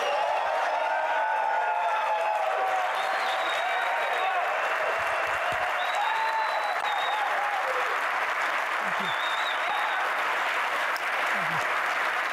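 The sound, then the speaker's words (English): Steady applause from an audience welcoming the guest Gary V at the start of a talk about hard work, perspective and health, a sustained wash of clapping that keeps an even loudness for about twelve seconds. “Make some noise for our guest today, Gary V.”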